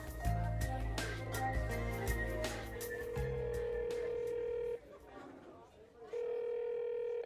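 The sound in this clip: An electronic telephone ring sounds as a steady, mid-pitched tone in two long bursts with a pause between, following a passage of music.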